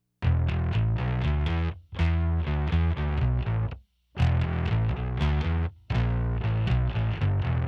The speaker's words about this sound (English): The live channels are doing a single send in an aux containing the high pass filter and the Pod Farm 2 distortion from the demo. The live bass sound now sounds like this.